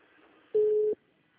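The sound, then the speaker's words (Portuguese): A single short electronic beep sounds on a telephone line as a call is put on hold: a steady mid-pitched tone under half a second long, over faint line hiss. “Ela colocou a chamada em espera, coitada.”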